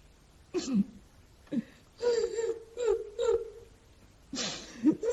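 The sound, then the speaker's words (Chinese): A man crying in distress, with several separate bursts of whimpering, wavering sobs and gasping breaths broken by short silences, quiet overall, with the last burst rising loudest at the end. “兄弟别哭别哭”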